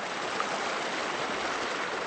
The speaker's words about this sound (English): a cleric named Haji Nuri showed the contaminated stream that residents drink from